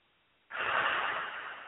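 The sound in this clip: A long breath is blown out during a guided emotional-release exercise: one soft, breathy exhalation begins abruptly after a short silence and holds steady to the end, with no talking.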